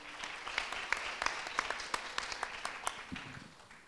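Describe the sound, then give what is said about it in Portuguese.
Applause from an audience welcoming guests, a brisk run of scattered claps that thins out toward the end, moderately loud with no voices. “Então, bem-vindos, uma salva de palmas para eles.”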